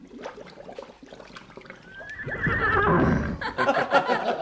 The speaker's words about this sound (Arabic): خليهم يحضروا الحصان بتاعي اوام.